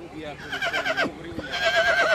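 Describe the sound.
An Arabian colt neighs at a horse show in wavering, high-pitched whinnies, with a couple of bursts that rise and fall, moderately loud.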